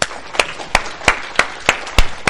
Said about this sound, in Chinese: 我们一起鼓鼓掌好吗？